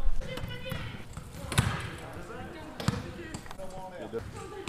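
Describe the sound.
A few basketball bounces on a court during wheelchair basketball, thudding irregularly under people talking and other squeaks and clatter from play.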